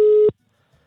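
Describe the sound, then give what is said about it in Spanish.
A telephone line tone sounds while a call is being dialed: one short, steady, clear beep that cuts off abruptly into silence. “Lo marco, le marco en este momento. Escuche pues. A ver si contesta ahora.”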